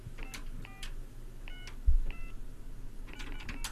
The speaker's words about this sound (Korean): 정답 보내주신 분 중에서 한 분 다시 한번 전화 연결해 보도록 하겠습니다.